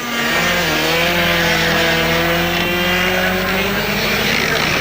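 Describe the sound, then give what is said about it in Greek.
Hyundai i20 and Ford Puma rally cars driving, their engines making a loud, sustained, raspy roar with no break. “Για να ακούσουμε ήχο από Hyundai i20 και Ford Puma.”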